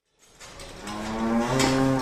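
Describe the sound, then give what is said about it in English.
A dairy cow moos on a farm near the North Fork of the Crow River, one long, low call that swells in loudness and holds through to the end. “Jerry and Linda Jennison have been raising dairy cows on this land just east of the North Fork of the Crow River for almost four decades.”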